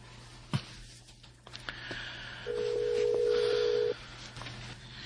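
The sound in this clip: An outgoing telephone call rings back once after a soft click: a single steady, fairly faint ring tone of about a second and a half over a low background hum.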